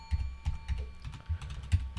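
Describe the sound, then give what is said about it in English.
Quick keystrokes clatter on a computer keyboard in a short, uneven burst of soft taps, with a faint steady electronic whine in the background. “Type this up. Okay. Type it up.”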